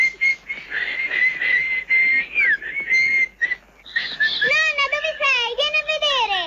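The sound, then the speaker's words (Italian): A family whistles together in bed: a sustained, high whistled tone that wavers and bends in pitch, broken by short gaps. High voices then join in with sliding, rising and falling tones. “Su, fischiamo adesso,”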